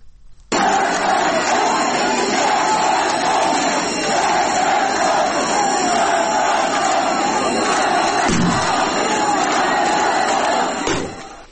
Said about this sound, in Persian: خاکسپاری کیان پیرفلک، کودک 10 ساله که به اثر تیراندازی ماموران جمهوری اسلامی کشته شد. مردم شعار بختیاری، رسم نماز نداره، مرگ بر خامنه‌ای و شعارهای دیگه ضد حکومتی سر میدن که صدای ایزه رو میشنویم.